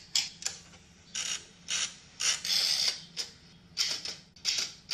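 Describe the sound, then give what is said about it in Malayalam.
A typewriter clacking out a letter, worked by a female robot facing a wall: bursts of rapid mechanical key strikes with brief pauses between runs, fairly loud and without voices. “ഭിത്തിക്ക് അഭിമുഖമായി type റൈറ്ററിൽ കത്ത് type ചെയ്യുന്ന പെൺ robot സുള്ള.”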